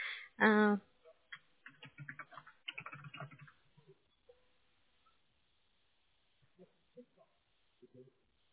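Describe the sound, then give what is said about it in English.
A few sparse, light key taps on a computer keyboard follow a stretch of speech, with quiet pauses between the clicks. “Let me type your answer.”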